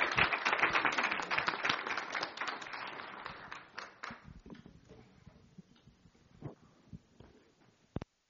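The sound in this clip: A church audience claps to welcome a pastor, a fairly quiet burst of applause that thins into scattered individual claps and fades out, ending on one sharp clap.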